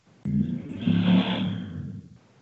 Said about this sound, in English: The fuck was that? Wait, I told you guys where I live, right? I live in the loop, like the street racing loop of Des Moines.